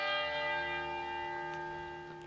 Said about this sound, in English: Those bells remind me of the bells that called my ancestors 6 a.m. to wake up and to begin prayer, and at noon to stop and to eat.